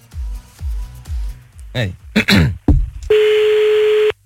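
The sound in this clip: A telephone call being dialled: a few low thumps and warbling electronic chirps lead into one long, steady electronic tone lasting about a second.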